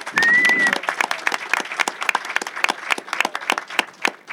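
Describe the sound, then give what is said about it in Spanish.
A small group applauds the sound-desk operator at the opening of a panel talk show, with scattered, distinct hand claps in an uneven rhythm, fairly loud throughout. “Fuerte el aplauso para Gonza”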